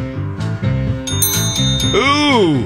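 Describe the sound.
A bell rung by a contestant in a song-guessing game, heard as a few bright, high rings over music with singing.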